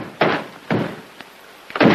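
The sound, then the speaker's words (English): An upstairs storeroom door is opened: a few dull, heavy wooden thumps with short gaps between them, one of them faint. “opens the upstairs storeroom door.”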